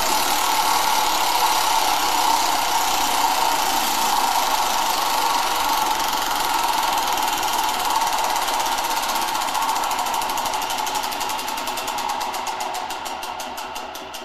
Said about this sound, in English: You thought the Wheel of Fortune wheel was big. Oh, that's tiny in comparison. Yeah. You know. Okay. Well, I'm going to just reach back over here and give it a good old spin.